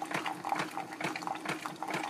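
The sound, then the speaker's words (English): Hot water pouring from a hot water boiler into a cup, a steady gurgling flow with quick, uneven pulses throughout. “Alright, over to my hot water boiler. Put some hot water in this.”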